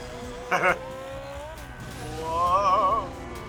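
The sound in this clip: In a video game, a motorcycle engine revs hard with a wavering, rising whine and a brief loud burst early on, while people talk over the action.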